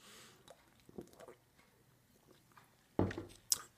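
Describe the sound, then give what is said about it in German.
A person taking a sip of a drink: quiet, wet mouth sounds with a couple of louder gulping noises near the end. “warte mal, muss ich noch einen Schluck trinken.”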